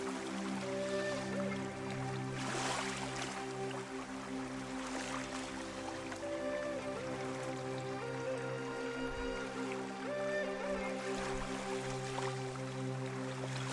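Flowing stream water hisses steadily and without a break for the whole stretch, with sustained low tones running underneath at an even loudness.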